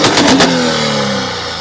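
Loud engine revving from a 2023 Dodge Hellcat Jailbreak car: a few sharp throttle blips at the start give way to a sustained, slightly falling rumbling note that gradually eases off.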